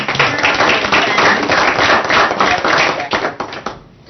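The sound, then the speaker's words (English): Audience applause at a meeting celebrating an award: dense, steady clapping that stays loud, then thins out and fades near the end. “none of whom are here to hear your applause”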